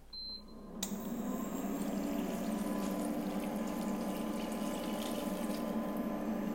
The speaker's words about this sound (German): Da geben wir jetzt die Gemüsebrühe dazu.